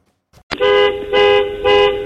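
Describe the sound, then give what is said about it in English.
A vehicle horn, likened to a TIE fighter, sounds three brassy, harmonic honks after a sharp click. Each blast is loud and lasts under half a second, with short gaps between them. “That's the horn of a TIE fighter.”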